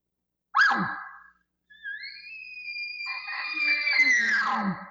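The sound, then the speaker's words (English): A hunter's voiced roundup bugle imitating a bull: a short rough blast, a pause, then a long high whistling tone that holds steady and ends in a raspy, gravelly growl. “That is a roundup bugle.”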